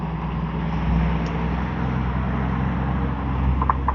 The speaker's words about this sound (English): my, that's a big one. Dump truck.